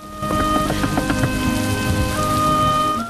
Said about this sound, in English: As the rain sheets down on the fields and trees around the house,